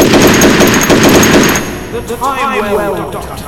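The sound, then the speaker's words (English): A rapid, dense burst of Browning M2 .50 caliber machine gun fire runs loud and continuous for about one and a half seconds. A voice then speaks after the shooting stops. “How else would I be able to pull out this Browning M2 0.5 caliber machine gun and shoot your companion dead?”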